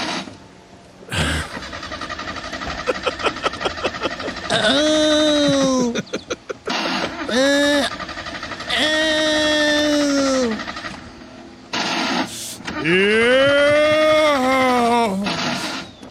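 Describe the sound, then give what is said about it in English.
A parked car engine cranking and vibrating, with rapid rhythmic chugging bursts from the starter alternating with loud, drawn-out tonal whines that swell and fall, repeated several times and separated by brief gaps. “And you run the engine, and then it starts vibrating, and I guess it shakes your butthole. I'm not certain, but if you want to hear, here are just some of the erotic sounds of cranking.”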